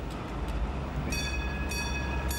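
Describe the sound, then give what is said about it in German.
A spartan Esslinger railcar runs on the Tälesbahn branch line near Neuffen, giving a steady low rumble throughout while three brief, bright high-pitched tones cut in over it; no voices. “dieser spartanisch ausgestattete Esslinger Triebwagen fuhr noch bis Anfang des Jahres”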